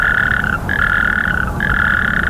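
Frogs croaking in a steady, high trilling chorus, heard in three long stretches broken by two brief pauses over a rough, low background rumble.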